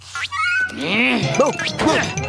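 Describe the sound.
A person imitating a cat's meow, pretending to be a cat to lure dogs: a few drawn-out, arching mewing calls in a human voice, fairly loud and alone.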